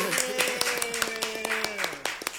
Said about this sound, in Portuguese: Recebam com forte aplauso